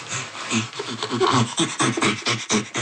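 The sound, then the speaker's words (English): An ape pants in a rapid rhythmic series of breathy, voiced bursts on both inhalation and exhalation. The rasping pulses rise and fall in loudness like panting laughter. “The panting comes from this inhalation and exhalation. And while inhaling, producing the sound, and while exhaling, producing the sound.”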